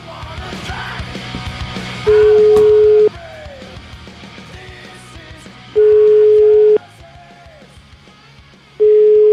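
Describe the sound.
Telephone call being placed: two long, steady, evenly spaced ringing tones of about a second each, and a third cut off at the end, over a faint background hum.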